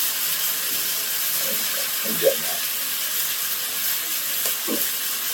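A steady, hissing sizzle of scallops searing in a pan over a very hot flame, with a few brief, faint pops rising above the even frying noise.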